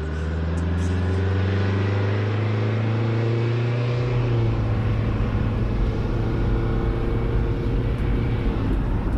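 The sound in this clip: A vehicle engine idles with a steady low hum, then at about four seconds the pitch drops and a broader rumble takes over as it pulls away. The rumble stays loud and continuous, with no talking.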